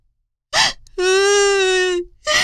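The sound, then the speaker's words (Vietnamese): A girl bursts into sobs, with a sharp gasping breath, then a long steady wailing cry held for about a second, then another gasp. “Ma Sa sợ hãi, òa khóc nức nở.”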